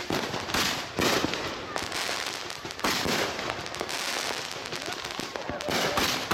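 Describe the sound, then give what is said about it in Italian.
Fireworks for Independence Day on the Fourth of July crackle and pop almost nonstop. Dense bursts of sharp bangs and fizzing crackles rise and fall in waves at a fairly steady, moderate loudness. “avete sentito un audio di fuochi d'artificio”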